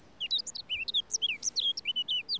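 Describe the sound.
Eurasian blackcap song from a wooded spot with bushes and trees: many quick, high warbling notes and chirps in a lively, unbroken run, heard alone.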